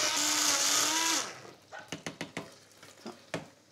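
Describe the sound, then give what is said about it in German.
An electric mixer whirs loudly for about a second, blending butter and white wine with finely cut beetroot, then stops. Several sharp knocks and taps follow. “So, das wird jetzt schön, das wird jetzt schön gemixt.”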